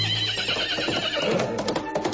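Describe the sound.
A horse neighs in a long, shaky, wavering whinny, with a few faint clopping sounds near the end.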